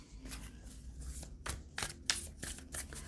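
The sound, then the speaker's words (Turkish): Tarot cards are handled and picked through for a reading, making soft papery flicks and light slaps in several separate bursts, quiet and without talk. “ve kart seçeceğim.”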